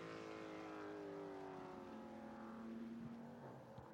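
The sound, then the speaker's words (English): The engine of a Cadillac sports-prototype race car drones through the final corners during a practice session at a Canadian road course. It is a faint, steady, buzzing whine with slight shifts in pitch, and no voices are heard. “Watching that number 31 Cadillac come through the final couple of corners as Alexander Sims”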